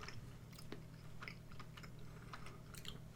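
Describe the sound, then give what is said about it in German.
Chewing of a mustard-tasting food during a taste test: faint, moist mouth sounds with many soft crunchy clicks scattered irregularly, with no talking. “wir wollen jetzt nicht zwei Minuten beim Kauen zuhören”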